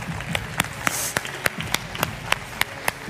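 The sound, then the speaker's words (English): An audience at a boot camp event applauds to welcome a speaker, with many sharp, evenly spaced claps in a steady rhythm over a low background murmur. “Can we give a big boot camp welcome for Fred Amrine? Woo! Give it up.”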